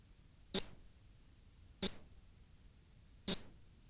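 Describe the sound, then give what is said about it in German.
A German telephone time announcement gives three short, bright electronic beeps, evenly spaced about 1.3 seconds apart, each one brief and sharp against near silence. “Beim dritten Ton ist es genau 9.40 Uhr.”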